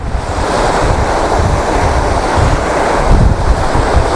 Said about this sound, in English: Oh, it's too windy. I can't get